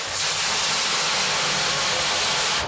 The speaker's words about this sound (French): Hop, la plonge, le lavage. Ce qu'on appelle une douchette.